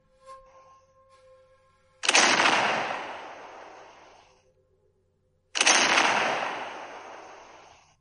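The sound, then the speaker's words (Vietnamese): Two loud cannon blasts fired near a city wall and an imperial camp. Each is a sharp boom that rolls off over about two seconds, and the two are separated by a short pause, with faint scattered sounds before the first. “Hai tiếng nổ lớn kinh thiên vang lên, đất núi rung chuyển”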